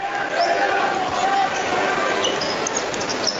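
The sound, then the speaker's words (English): A basketball is dribbled during a boys' high school game: soft, repeated bounces thud beneath a steady wash of crowd noise, with a commentator talking throughout. “Crossover dribble from Cole, gets the bait, nice hesitation, gets the baseline.”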